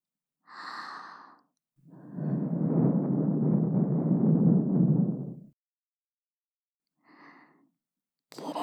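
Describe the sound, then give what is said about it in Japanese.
Soft, breathy blowing into an ear, done by a girl playing a younger sister. A short puff comes first, then a long, steady blow lasting several seconds, then another brief puff. It sounds alone, with no talking. “妹にお耳ふうふうされるなんて、恥ずかしくない？”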